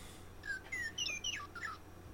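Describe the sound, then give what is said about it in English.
Western Meadowlark song: a short run of clear, flutey whistled notes, several slurring downward in pitch, spread over about a second and a half. Faint and thin, with no voices. “Here's a little tweet from our Meadowlark, Western Meadowlark.”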